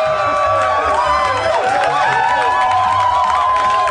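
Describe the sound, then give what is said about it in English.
A live audience of 40,000 cheers at a stage show, a dense, continuous roar of many voices with whoops and shouts that stays loud from start to finish. “Tonight's attendance, 40,000 people. I love it.”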